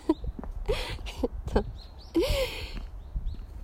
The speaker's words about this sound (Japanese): なんかめっちゃ鳥が鳴いてる。